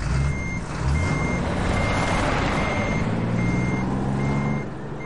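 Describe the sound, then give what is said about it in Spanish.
A truck reverses with a steady, high electronic beeping warning tone that cuts out briefly now and then, layered over a loud, low diesel engine rumble that stays constant throughout. “El conductor vuelve al camión y retrocede.”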